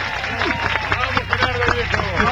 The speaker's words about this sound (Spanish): Aplauso general para el programa nuevo.